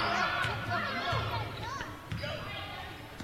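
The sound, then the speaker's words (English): A basketball is dribbled on the court during a women's basketball game. Low, rhythmic thuds bounce under continuous play-by-play talk. “Dribbling between the circles is Cole”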